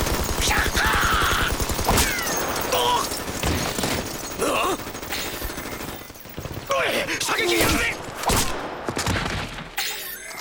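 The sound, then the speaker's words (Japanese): Rapid machine gun fire in a game-world firefight, a dense, fast burst of shots followed by heavy blasts, shattering and clattering impacts, loud throughout. “速射連射走射降射乱射、弾ある限り撃ちまくろ。”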